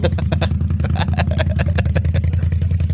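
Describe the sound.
A quad bike does a burnout on a trailer, its engine roaring loud and steady at high revs with a dense, rapid mechanical clatter that holds constant throughout.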